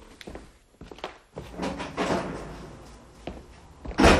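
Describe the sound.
A door being opened, heard as a few dull thumps and soft clatters that end in a louder, brief burst of noise, with no voices over it.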